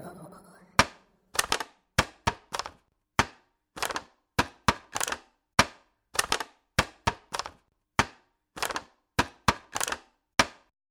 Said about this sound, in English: The answer is plastic. That was a plastic container that I think once had strawberries in it.